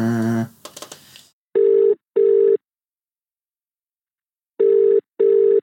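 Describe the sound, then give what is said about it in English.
Telephone ringing on a call to a mobile number: two double rings, each a pair of short, steady, loud tones separated by a silence, after a brief opening tone and some noise. “Dial again. Check the number and redial.”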